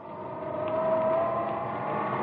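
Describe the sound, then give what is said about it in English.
An elevator in a 35-storey building whirs as it climbs fast toward the roof, giving off a steady, fairly faint mechanical hum with a thin tonal whine held throughout. “I've always wanted to run an elevator. Let's see how fast we can get to the roof.”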